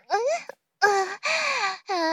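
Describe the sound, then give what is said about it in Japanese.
A person cries in four drawn-out, whimpering wails with a clear voiced tone, separated by brief pauses. “泣きそうに、ならなくてもいいのに。ほら泣き止んで”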